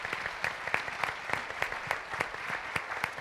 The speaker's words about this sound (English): I want to give Mary Beth and the kids another round of applause